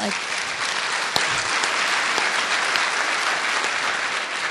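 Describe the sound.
Audience applause: dense, steady clapping from a crowd that stays loud and even for the whole stretch, with no break in the sound.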